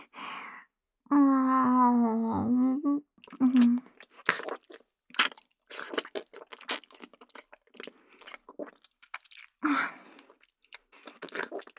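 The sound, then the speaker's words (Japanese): Crunchy chewing while eating a meal: a voice makes a drawn-out sound at the start, then many short, crisp crunching bites follow in an irregular rhythm, quiet against silence. “それではご主人様、改めてご飯いただきますね。”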